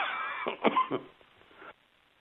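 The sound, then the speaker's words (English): A person with a lingering cough lets out a few short, rough coughs bunched close together, moderately loud, followed by a fainter breathy rasp and then quiet. “pardon me, still got a little bit of that cough.”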